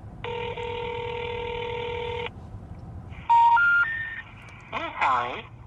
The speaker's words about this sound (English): Now, as we left the Mountain Oyster Club, I pulled up another list of possible numbers and dialed away.